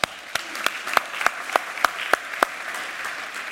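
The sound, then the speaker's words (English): An audience claps at a United Methodist church welcome in Austin. Crisp claps land in a steady, even rhythm over a softer bed of scattered applause that continues after the rhythmic claps stop. “you're clapping, but there's a but.”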